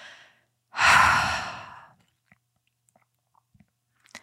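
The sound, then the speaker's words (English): A single long exhale, a breathy sigh-like rush of air that swells and then slowly fades, followed by a few faint small clicks, with no talk. “As you exhale and you take that long exhale,”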